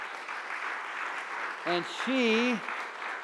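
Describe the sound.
A church audience claps in a dense, steady wash of applause that runs throughout, and a voice calls out briefly over it near the end.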